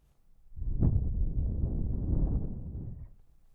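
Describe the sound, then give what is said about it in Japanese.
Soft, gentle breath blown into the ear: a single faint, airy exhale that swells in and holds for about two and a half seconds before fading. “じゃあこのくらいでふうしますね。”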